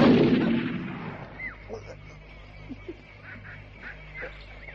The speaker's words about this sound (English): The German found a bullet, pressed it into the breech, and fired.